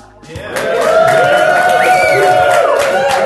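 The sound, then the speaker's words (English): Audience cheering and whooping at a live recorded show at DragonCon 2017. The sound is loud and sustained, with dense crowd noise and a few shrill whoops on top, and it rises quickly at the start. “We have a very obedient audience here today. Cheering whenever I tell them to.”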